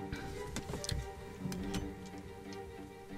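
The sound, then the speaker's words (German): Faint clock ticking, with many soft ticks over a low background wash and no voices. “Kinder, die Uhr läuft!”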